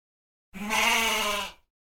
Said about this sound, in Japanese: おいなんだこいつ、変な鳴き声だな。 この村のカワウソは嗅いだ匂いによって鳴き声が変わるって知らないのか。